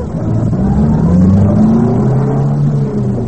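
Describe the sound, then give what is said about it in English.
A car engine runs as the car drives around the block, a loud, continuous low rumble whose pitch gently rises and falls, with no talk over it. “maybe I better drive around the block again”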